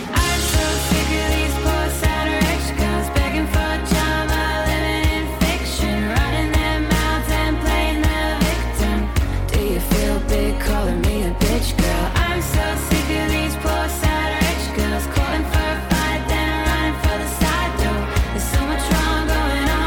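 A Melbourne singer-songwriter's song plays as a dense, full-band mix with a steady driving beat and layered instruments, loud and continuous throughout, with no talking over it.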